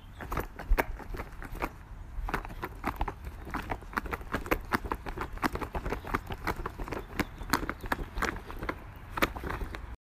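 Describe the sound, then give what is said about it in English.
Creepy footsteps as a Halloween sound effect: many soft, thudding steps in an uneven, shuffling rhythm, faint and alone, continuing steadily for about ten seconds. “Creepy footsteps.”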